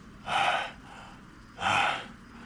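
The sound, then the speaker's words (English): A man breathes heavily while leaning back against pillows in bed, with two loud, airy breaths, each lasting about half a second and separated by a quiet pause. “He leaned back against the pillows and breathed heavily.”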